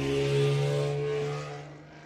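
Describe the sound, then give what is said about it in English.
Traffic passing outside on a Washington DC street: a steady, low engine drone with a humming undertone that holds briefly, then fades over the last half second. “Pardon my crazy driving neighbors here in this great city of DC.”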